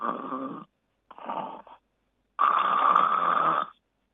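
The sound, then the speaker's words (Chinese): A person imitating continuous snoring with the voice, without breathing pauses: three rasping, rumbling snores, two short ones followed by a longer, louder one, alone against silence. “正常的就是如果单纯的没有呼吸暂停的呼鼾声应该持续的，就像这样”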